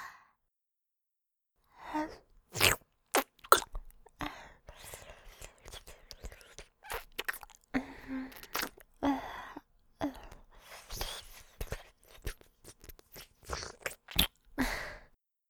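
Wet kissing and mouth sounds, with many short smacking clicks in an irregular rhythm and soft breathy sighs and whispery exhales between them.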